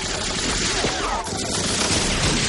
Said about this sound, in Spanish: Los alemanes tiran granadas hacia los asaltantes. Rematan a los heridos y ametrallan a los que huyen.